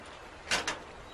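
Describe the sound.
A door is opened with two short, brisk noisy bursts in quick succession, standing out against an otherwise quiet, faintly hissing background.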